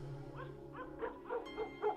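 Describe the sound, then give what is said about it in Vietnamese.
A yellow dog barking: a string of short, faint barks and yips in quick succession, with no clear growl. “Con chó vàng bỗng nhiên gầm gừ sủa lên.”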